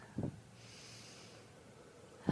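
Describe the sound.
Deep breathing during a meditative breathing exercise: a short snort-like nasal breath, a faint airy draw of air, then another sharper breath at the end, all quiet and unaccompanied by talk.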